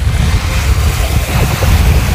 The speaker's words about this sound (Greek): Μόλις ήρθα και στην παραλία να ακούσουμε λίγο το φλίσβο.